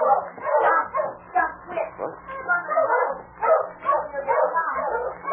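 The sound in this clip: A dog out in river water barks, yips and whimpers in an almost unbroken run of excited, anxious calls that rise and fall in loudness.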